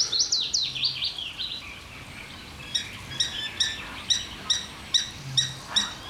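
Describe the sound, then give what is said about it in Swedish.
Willow warbler and garden warbler singing: a sweet, high, tumbling phrase slides downward at the start, then a regular series of short, bright high notes repeats evenly, clear against quiet background hiss. “Lövsångaren kör ju för fullt. Och sen är det en trädgårdssångare som även har vaknat här.”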